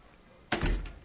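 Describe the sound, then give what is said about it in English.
A door being opened: one heavy thunk after a quiet start, followed by a short rattling tail that slowly fades. “this door locks, but you walk in this door.”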